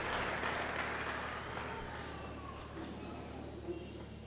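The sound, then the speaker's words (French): A church audience applauding to acclaim the word of God as they sit down: faint, dense clapping, fullest at the start and gradually thinning out over a few seconds. “Est-ce qu'on peut acclamer la parole de Dieu alors qu'on s'assied?”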